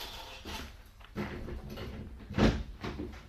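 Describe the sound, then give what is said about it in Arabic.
A door is opened to let a woman out of her confinement, heard as a few soft knocks and rattles, ending in a louder, heavier thump. “استنى ما نفتح الباب.”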